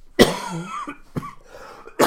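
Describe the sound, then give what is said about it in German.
A person coughs into a microphone, three sharp, loud bursts spaced across the moment with faint breathing and throat noise between them and no speech. “wenn ich hier noch ein bisschen ins Mikrofon huste, tut es mir leid, ich drehe mich dann auch schnell weg.”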